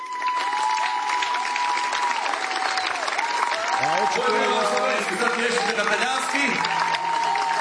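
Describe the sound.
Audience applause at a live music show, a sustained wash of clapping with a voice speaking over it partway through.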